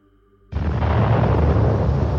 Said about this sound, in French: l'artillerie motorisée crache son feu. Le bruit du canon rebondit de sapin en sapin.